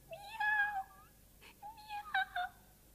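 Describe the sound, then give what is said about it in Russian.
A kitten meows a few times: a high, wavering mew, a short pause, then several quicker mews in succession, clear and fairly loud with no talk. “все мяу да мяу. Вот какой глупый котенок.”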